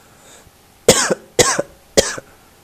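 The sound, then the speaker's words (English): Coughing from boys: three sharp, evenly spaced coughs, each a loud, harsh burst followed by a short rasping catch, with no talk around them. “Cough, boys. Well. Cover your mouth,”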